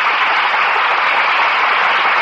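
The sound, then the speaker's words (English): Loud studio audience applause for an opera singer guest, a thick, continuous roar of clapping that stays level from start to finish. “So let's turn on the plain old applause for Miss Dorothy Kirsten.”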